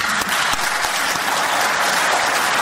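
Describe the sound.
Parliament deputies of the Armenia Alliance faction stand and applaud as the names of two absent members are read out, producing dense, steady clapping that fills the whole stretch evenly with no voices rising above it.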